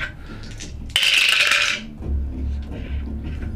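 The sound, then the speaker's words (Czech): Six-sided dice clatter in a sharp rattling burst about a second in, then a quieter, lower rumble of tumbling follows as the roll settles. “já jsem hodil na šestistěných kostkách, jsem nehodil po čtyři. Jenom šestky a pětky.”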